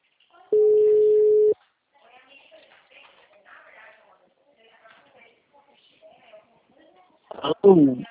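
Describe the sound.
A single steady telephone tone after a dropped call holds for about a second, followed by faint, quiet voices and a louder burst of sound at the end.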